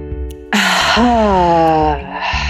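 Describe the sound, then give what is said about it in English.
A deep breath taken together in a breathing exercise: a faint intake, then a long, loud, voiced exhale that sighs out for over a second before trailing into softer breath noise. “Ready? Inhale. Exhale, let it out.”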